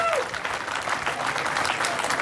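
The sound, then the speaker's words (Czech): Applause, dense and steady clapping from a crowd that holds at an even level across the short stretch. “Ano, zaslouží si to potlesk.”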